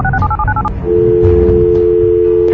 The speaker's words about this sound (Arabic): بعد التثبت من الرقم فريق برنامج رفعة القعدة هز التليفون وطلب الرقم اللي ثبتنا فيه.